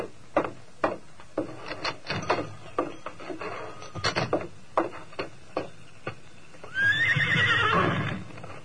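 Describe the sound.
Horse hooves and a whinny from a radio drama: a run of sharp, uneven clip-clop steps, then a loud, high, wavering neigh near the end.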